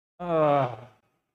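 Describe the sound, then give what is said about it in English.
An audience groans together on cue, one sustained, voiced group groan lasting under a second that swells quickly and then trails off into silence. “So I'm going to count to three, and then we're all just going to let out this tremendous groan.”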